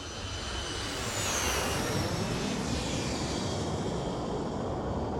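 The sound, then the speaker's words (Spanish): An airplane passing overhead: a loud, broad, steady roar that fills the whole clip, with a faint whine that slides downward in pitch as it goes by. “Los tres miran al cielo. Un avión pasa sobre sus cabezas.”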